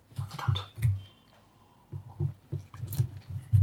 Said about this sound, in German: Ich mag ja kein Merzen. Ähm, aber ich nehme mal einen Schluck.